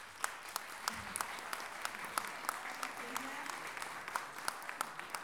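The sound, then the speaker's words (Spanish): An audience applauds at a book launch event with dense, continuous clapping at a fairly soft, even level. A few sharper single claps stand out throughout. “para Olimpia, por favor, un aplauso grande para la Olimpia”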